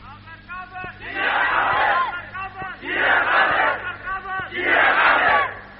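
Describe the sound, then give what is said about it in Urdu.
A crowd chants a slogan in three loud, massed bursts. Each burst is preceded by a single voice leading the call, so lead and crowd alternate in a regular back-and-forth. “آپ کے منہ میں اگر زبان ہے تو یہ نعرہ ہر زبان پہ آنا چاہیے نا.”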